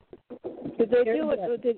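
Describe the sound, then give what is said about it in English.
A pet bird coos in its cage, a loud run of low, warbling coos that swell and waver. “Because he was a good bird and went right back in his cage when I asked him to.”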